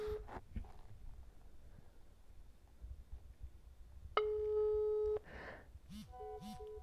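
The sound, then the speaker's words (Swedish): A WhatsApp call rings out with a steady electronic tone rich in overtones lasting about a second, followed by shorter, quieter tones. “Vi ringer via WhatsApp såklart.”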